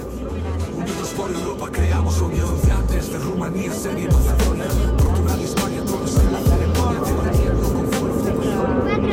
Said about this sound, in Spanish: tenemos un programa especial desde el avión que está llegando a Santander.